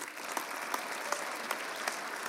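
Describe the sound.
An audience applauds to welcome a speaker on Mother's Day, with steady, dense clapping and a few sharper claps standing out at a regular pace.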